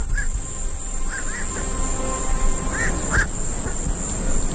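Short bird calls, some duck-like quacks, ring out at an ornithological reserve in a river delta during a total solar eclipse. They come scattered and fairly faint over a steady, high insect-like drone that runs throughout.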